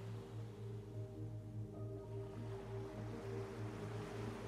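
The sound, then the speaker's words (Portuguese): Ocean waves wash onto a paradise beach at sunset in a steady, continuous surf roar that stays moderately loud throughout, with a low pulsing rumble underneath and no voices. “escutar os sons das ondas, sentir o cheirinho do mar, observar essa praia paradisíaca.”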